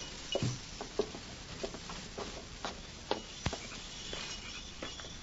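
Footsteps of people walking together, soft, irregular steps with a few sharper taps, fairly quiet and with no talking.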